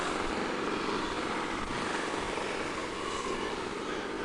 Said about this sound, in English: This is a Marine helicopter going by.